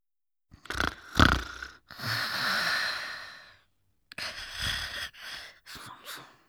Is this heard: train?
no